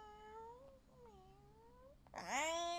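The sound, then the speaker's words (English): A voice imitates a cat meowing with a few drawn-out, wavering meows. The first ones are soft, and the final meow is louder and more strained, bending down then up in pitch. “I'd hear, meow, meow,”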